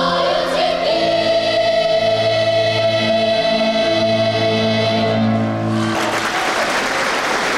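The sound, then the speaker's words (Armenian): Audience clapping in a full concert hall after a children's performance of a song, dense steady applause alongside sustained musical tones, growing into louder, brighter clapping at the end. “Իր հեղինակած մեղեդին Արցախցի փոքրիկների շուրթերից հուզված լսում ու ոտքի է կանգնում ծափահարելու համար։”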